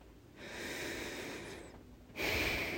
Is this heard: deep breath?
yes